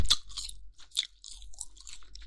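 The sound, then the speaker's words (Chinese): Crispy skin being bitten and chewed, with a few sharp, crackling crunches separated by softer, wetter chewing noises, close and alone with no talking. “还有一些皮皮没有咬完。粘在上面，晃来晃去的。再咬一点，”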